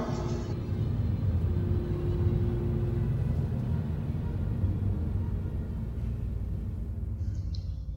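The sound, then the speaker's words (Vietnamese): An old Jeep drives off, its engine a low, continuous rumble that holds at an even, fairly faint level throughout. “Trời đã dần sáng, phương đông mây đỏ ửng hồng, chiếc xe Jeep cũ kỹ hướng rằng mây đỏ phóng đi.”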